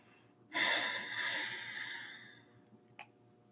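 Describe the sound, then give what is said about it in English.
A single long, breathy inhale during a guided breathing meditation with eyes closed, rising quickly and fading over about two seconds, followed by a faint click over a low, steady background hum. “So just begin to breathe.”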